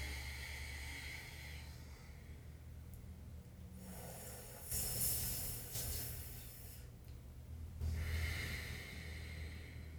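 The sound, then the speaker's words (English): Slow, soft breathing through the nose during a breathing exercise: a long airy breath drawn in and then let out, rising to a gentle hiss and fading, quiet throughout. “But you'll breathe in. And then out through your nose.”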